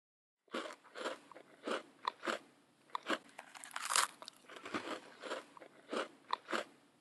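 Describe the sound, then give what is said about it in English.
Crisp biting and chewing of a Corne de Gazelle almond pastry while walking in the Marrakech medina. Many sharp, bright crunches come in an irregular rhythm, fairly loud, with no talking. “did you get your Corne de Gazelle? Now, as we walk, take a bite. And while you're eating it, try to guess the ingredients. I'm eating one too.”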